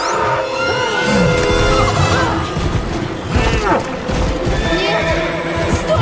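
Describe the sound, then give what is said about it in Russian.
A spirited horse neighs and whinnies loudly in shrill, wavering cries over a dense, rumbling wash of stormy waves, with hoofbeats mixed in throughout. “Щит разлетается, и конь, зажав руку девушки во рту, тащит ее по бушующим волнам.”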